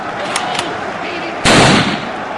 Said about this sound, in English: You have to shoot Hitler now. You only have one shot at this. Take the gun. Take the gun now. Make the shot.